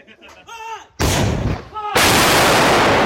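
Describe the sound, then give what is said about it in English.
Ukrainian soldiers fire artillery in a forest in southern Donbas: two loud booming blasts about a second apart, each followed by a heavy roaring rumble, with a brief voice just before the first shot. “They don't know what they shot. They have no idea if they hit the target or not. Here, they only get coordinates from the radio.”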